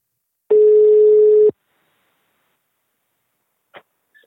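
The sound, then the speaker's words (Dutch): A single loud, steady electronic telephone ringback tone plays for about a second while calling someone, then silence followed by two faint clicks. “laten hem bellen. Kijken of je opneemt.”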